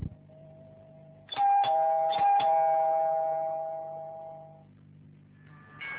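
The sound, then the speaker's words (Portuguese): A door's doorbell rings again: a loud, sustained electronic tone with a few clicks at its start fades slowly over several seconds, then another ring starts at the very end over a faint, steady hum. “A campainha da sua porta soa de novo.”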